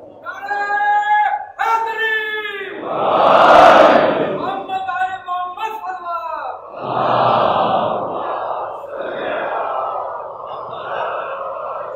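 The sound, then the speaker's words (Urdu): Religious slogans shouted at a sermon gathering: a lead voice calls out in drawn, held tones and the crowd roars back in loud bursts, the exchange repeating a few times. “دل سے لگ رہی ہے تبھی آپ نعرہ مار رہے ہیں.”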